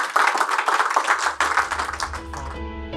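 A church audience at a Kingdom Living Ministries service claps in a dense, steady patter of many overlapping hand claps. Tonal musical notes come in near the end as the applause thins.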